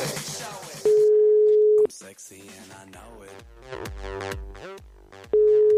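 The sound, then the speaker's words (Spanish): Ringback tone from a call placed to a landline telephone: two long, steady, mid-pitched beeps about four seconds apart, with a voice talking during the gap between them. “Estoy llamando el teléfono fijo ahí, ¿eh?”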